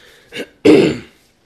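Throat clearing from a tickle in the throat: a short, soft rasp, then a louder, longer guttural clear, heard alone.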